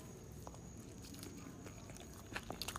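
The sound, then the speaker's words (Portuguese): Food being chewed, faint crunchy bites and mouth noises that grow denser and sharper toward the end. “Tô comendo, man.”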